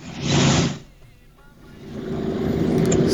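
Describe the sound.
A motorcycle engine roars loudly, drops away to a quieter rumble, then builds back up to a sustained drone.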